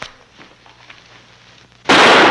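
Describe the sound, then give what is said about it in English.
A single gunshot fired at point-blank range: near silence, then one sudden, sharp, very loud burst that carries on to the end. “But he couldn't have missed you. He fired point blank.”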